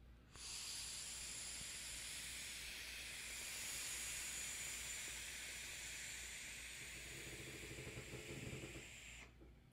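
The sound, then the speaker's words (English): A long, slow, deep drag on a vape gives a steady, soft airy hiss that runs unbroken for about nine seconds, with a slight low rumble toward the end. “And I like doing that with vapes. I like taking long, long, slow, slow, deep, deep drags.”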